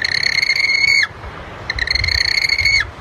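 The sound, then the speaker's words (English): Yellow-eyed penguin calling: two shrill, harmonic trilling calls, the second longer than the first, with a short quiet gap between them and no other voices. “Voters chose the yellow-eyed penguin, the hoi ho, as the bird of the year. It is one of the rarest penguins in the world, and it's true, it is a beautiful bird, but it also sounds like this.”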